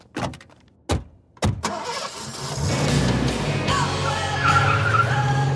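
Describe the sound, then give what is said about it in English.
A car starts up and races off: a few sharp, loud knocks come first, then the engine catches and settles into a steady, rising roar with a hint of tyre skid as it speeds away. “There they go, racing off with the evidence before I can even begin to get my scoop.”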